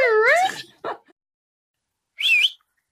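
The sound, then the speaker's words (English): A person whistles the way one calls a dog: a loud sliding whistle first, then a pause and a second, shorter rising-and-falling whistle. “Can you do that whistle for me again? No, I can't do it. You do it. The dog, the, like, calling a dog.”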